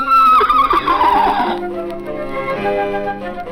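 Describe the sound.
A horse whinnies loudly in a dramatised fairy tale, a quavering high call that slides down in pitch over about a second and a half, followed by steady sustained tones.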